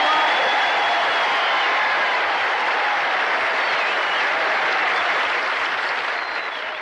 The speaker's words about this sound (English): And I honestly didn't hear the last of his words because the applause just drowned him out.